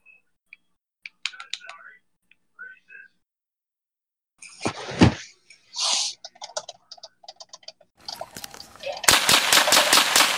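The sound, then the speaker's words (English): Rapid gunfire bursts out near the end as a fast, even string of sharp, loud shots, after a stretch of scattered clicks and brief noises. “Whoa, who's shooting up the school?”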